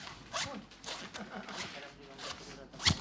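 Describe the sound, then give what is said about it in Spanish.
Performed sound effect imitating a carpenter cutting wood with a handsaw: many faint, rhythmic rasping strokes, back and forth at an even pace, ending on one sharper stroke. “Hay muchos efectos que se pueden hacer. Por ejemplo, un carpintero cortando madera con un serrucho.”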